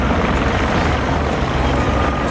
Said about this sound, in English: Helicopters just flew by, one after the other.